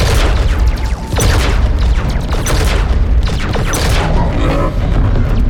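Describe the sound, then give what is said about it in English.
Heavy gunfire from a space fleet in a video game, warships assaulting enemies above a planet: a loud, unbroken barrage of booming blasts and crackling shots layered densely together throughout. “They're shooting, and the Reapers are taking little hits, but they don't seem to mind.”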